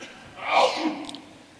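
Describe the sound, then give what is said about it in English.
A single human sneeze, a fairly faint breathy burst that swells quickly and trails off. “Gesundheit.”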